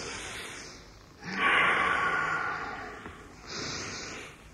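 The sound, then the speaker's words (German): A person breathes in deeply to smell lily-of-the-valley flowers: one long, airy inhale that swells and slowly fades, then a second, shorter breath, both soft and without talk. “Man muss es tief einatmen. Dann erst hat man den vollen Genuss.”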